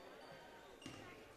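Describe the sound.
A basketball is bounced once before a free throw in a basketball game, a soft, muted thump over a steady wash of gym crowd noise.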